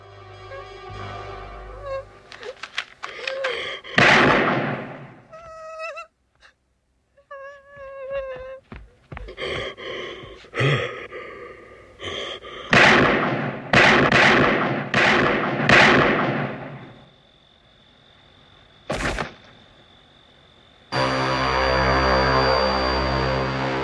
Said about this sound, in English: the next clip is at the very end of the movie when Donald Pleasance jumps in and starts shooting Michael with his gun, pretty much unloads into him. So listen to this.